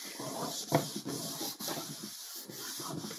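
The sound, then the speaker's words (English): Rubbing on a drawing board, a soft, continuous scratchy hiss of repeated strokes with brief dips between them, faint and steady with no voices. “I rub so that hopefully it will show up.”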